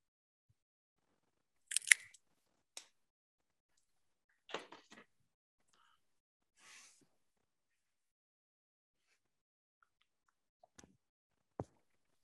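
Something is cut with a sharp snip just before a draw is checked, followed by a few faint, scattered clicks and small rustles in near quiet.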